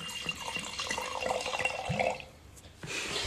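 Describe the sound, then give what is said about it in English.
Liquid splashes as a drink is poured into a glass in a continuous trickling stream, dips briefly to near quiet, then pours again toward the end. “you need to be quiet to get the drink pour in the glass.”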